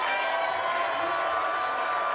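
A studio audience cheers and applauds a guest in a dense, steady wash of crowd noise that holds at a constant level for the whole stretch, with no breaks.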